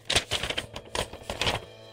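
Paper rustling and crinkling as a slip is taken from an advent calendar and handled. A few short, crisp bursts of rustle stand out against a faint background.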